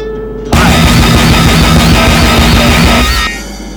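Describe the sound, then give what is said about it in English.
Remote-control rockets firing: a sudden, loud, harsh roar that bursts in abruptly, holds for about three seconds as a dense crackling blast, then cuts back to a low steady hum. “Standing by to fire remote control rockets. 5 seconds. 4, 3, 2, 1.”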